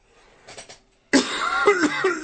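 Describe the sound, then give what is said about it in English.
Coughing: a couple of faint, short coughs, then a sudden louder, harsher burst of coughing that carries on to the end. “Will you knock it off with the coughing?”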